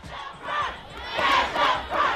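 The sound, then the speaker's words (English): A crowd of high school students and parents protesting school funding in Baltimore chants and shouts together, the loud massed voices rising in several rhythmic surges. “That is the sound of high school students and parents protesting over school funding in Baltimore.”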